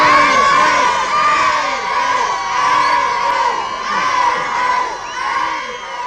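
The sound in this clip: Crowd of fans cheering and shouting as a train departs for Friedberg in Hesse, a loud, unbroken wall of high-pitched shrieks and cheers that swells and dips slightly throughout.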